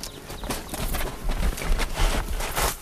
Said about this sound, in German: Ruhig, das sind Pferde.